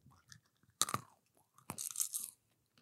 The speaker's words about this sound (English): Popcorn definitely makes better sounds.